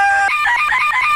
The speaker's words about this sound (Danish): Okay, jeg har fundet en gammel sampler, jeg har taget med. Og det er sådan en, hvor man kan komme alle mulige forskellige lyde ind i, og så kan man spille de her lyde på den. Og jeg har simpelthen proppet en hane ind i den, så det lyder sådan her.